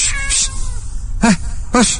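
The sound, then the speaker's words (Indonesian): An angry cat gives two drawn-out, wailing meows in quick succession, each rising and then falling in a harsh, strained tone, fairly loud. “kucing itu melotot ke arahku dengan muka yang marah. Dasar kucing jelek ya.”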